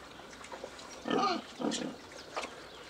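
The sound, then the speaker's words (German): Pigs grunting on a Spreewald farm, ten fattening pigs kept outdoors; a few low, short grunts come at intervals over a quiet background, with no talking. “Die 10 Schweine mästet der Spreewaldbauer für den Eigenbedarf und auf Bestellung.”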